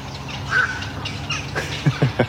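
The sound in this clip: Calls from a bird colony passing overhead while the young are being fed: scattered short, harsh calls over a steady low background, ending with a few louder clipped calls in quick succession.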